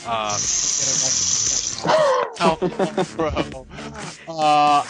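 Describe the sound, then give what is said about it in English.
A toilet flush: a steady, hissing rush of water for about two seconds under people talking, then the talk continues alone. “Ooh, a flush. That was extra special.”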